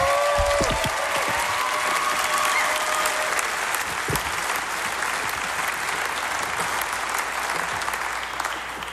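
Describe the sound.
An audience at a live music show applauds a performer, with steady, dense clapping that holds strong throughout and fades slightly at the very end.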